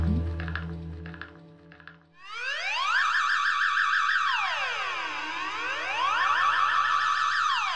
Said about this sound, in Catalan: Et desperta una alarma. És el teu pis. El so ve de la renglera de llums de l'entrada.